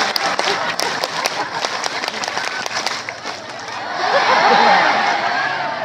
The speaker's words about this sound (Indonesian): Tepuk satu. Tepuk satu. Tepuk dua. Tepuk tiga. Tepuk pramuka.